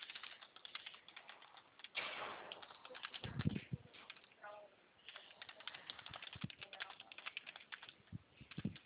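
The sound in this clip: Light taps of a CPF number being typed on a phone, in a quick, uneven run of soft clicks that continue under people talking.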